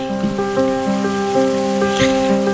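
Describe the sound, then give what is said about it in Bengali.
Heavy rain pours in a dense, steady hiss with no talking, and sustained musical tones hold underneath it throughout. “আমাদের কিন্তু প্রচন্ড বৃষ্টির আওয়াজ আপনারা পেয়েছেন, গানেও তাই।”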